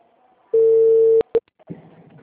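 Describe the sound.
A telephone call tone plays as one steady, clear beep of under a second. It is followed by two sharp clicks and then a short burst of faint line noise.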